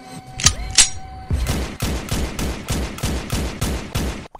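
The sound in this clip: Rapid gunshots in a video game: two isolated sharp shots, then a steady, evenly spaced burst of punchy reports that cuts off abruptly.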